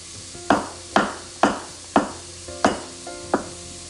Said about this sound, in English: So I turned down the heat on it. Move some of the onions and stuff. Onions and mushrooms around. Continue to chop some mushrooms.